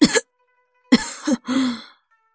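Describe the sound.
A sick woman lying in bed coughs a few times. Short, harsh bursts are separated by pauses, and a longer drawn-out cough follows.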